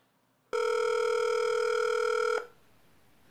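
A telephone rings after a number is speed-dialed: one steady, loud electronic ring tone holds for about two seconds and then cuts off, leaving quiet line hiss with no talk.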